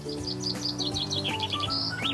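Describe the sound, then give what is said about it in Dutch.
Chaffinch singing in the early morning: a run of bright, high chirps and quick trills, repeated in short phrases over a steady low background hum. “Dit is de vink.”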